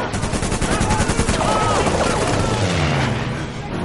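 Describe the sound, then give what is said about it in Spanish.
Rapid gunfire in a war film scene as people flee an armament factory and a car drives off, a dense, continuous crackle of loud bursts that runs throughout without a break. “Maru y Ludendorff se van en un coche. Steve les dispara.”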